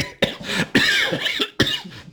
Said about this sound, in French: Assez froid dans la cave, ça fait tousser.